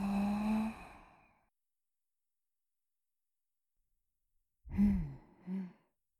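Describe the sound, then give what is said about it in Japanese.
Slow breathing, in through the nose and out through the mouth, heard as a long, soft, voiced sigh-like exhale. After a silent pause come two shorter breathy sounds, all fairly faint. “鼻からゆっくり息を吸って、口から吐いて、”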